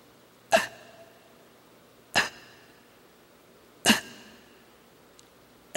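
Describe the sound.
A person imitates desperate gasping for breath, as if unable to get enough air: three sharp, harsh gasps at a slow, even pace, with a fourth starting at the very end, and faint quiet between them.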